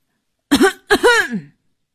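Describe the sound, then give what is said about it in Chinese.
Two deliberate coughs with a voiced, throat-clearing quality: a short first one, then a longer second that trails off lower, heard alone with no talk. “突然一个人故意咳嗽了两声”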